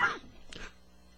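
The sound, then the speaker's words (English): Coughing from someone whose beer went down the wrong way: two brief, faint, throaty bursts, the second sharper and harsher, then quiet. “The beer went down the wrong way.”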